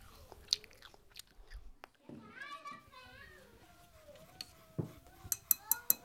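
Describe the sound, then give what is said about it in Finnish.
Someone bites and chews an apple, ending in a few sharp, crisp crunches, while children talk and play quietly throughout. “Omena tulee. Maistuu hyvältä. Purra, purra.”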